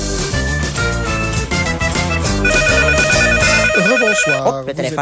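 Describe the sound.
A telephone rings in a steady, repeating electronic pattern, mixed over loud music.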